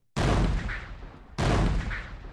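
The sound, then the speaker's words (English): Two heavy cannon blasts from Ottoman artillery, including giant bombard guns, firing on a city's land walls during a siege. Each loud, deep boom rumbles on for about a second, the second following just over a second after the first. “The 14 or 15 cannons are spread out along the land walls, including Urban's giant guns. The Ottoman artillery begins bombardment the same day.”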